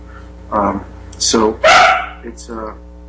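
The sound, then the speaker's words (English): Dog barking: several short, sharp barks in an irregular series, loud and alone, with one stronger, harsher bark in the middle. “You'll have to excuse me. That's my dog.”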